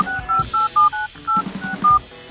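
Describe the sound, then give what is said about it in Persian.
Telephone keypad tones sound as a phone number is dialed: a quick, irregular series of short two-pitch beeps with brief gaps, clear and moderately loud. “میگم یه زنگ بزنیم به این پپه”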